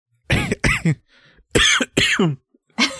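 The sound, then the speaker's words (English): Coughing and choking: a series of harsh, throaty coughs in short clusters separated by brief gaps, loud and rough, with a throat-clearing quality. “No, I'm just coughing and choking and dying.”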